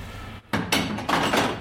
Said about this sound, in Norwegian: Da må jeg sette på en sånn jig. Som gjør at vi klarer å skjære plata i 60 graders vinkler, da.